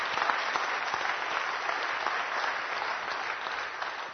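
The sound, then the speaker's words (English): Rousing applause from a church audience: dense, steady clapping from many hands that holds at an even loudness throughout. “Let's give a rousing applause to our Lord and Savior, Jesus Christ.”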